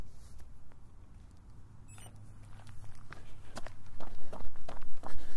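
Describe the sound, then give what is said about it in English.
Footsteps of someone starting a run: a few soft, scattered steps quicken into a steady, louder pounding rhythm over the last couple of seconds. “So without any further ado, let's go for a run.”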